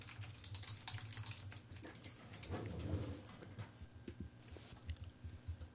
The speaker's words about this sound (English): I typed in the address